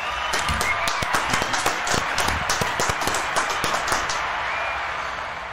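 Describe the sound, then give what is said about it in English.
Applause from an audience welcoming a guest, with distinct claps that stay fairly steady for a few seconds and taper slightly at the end. “I want everybody to give it up for Mike Young.”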